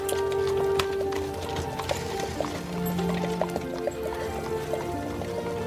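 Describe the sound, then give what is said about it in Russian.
Hooves of a horse pulling a cart clip-clopping along a road: many fairly soft, evenly paced hoof strikes over a low, continuous rumble. “Повозка сгоняет чиновника с дороги.”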